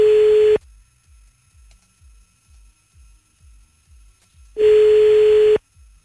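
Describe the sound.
A telephone ringing tone sounds while a call is placed: two steady mid-pitched tones, each about a second long, separated by a gap of about four seconds, with faint regular low ticking during the silence.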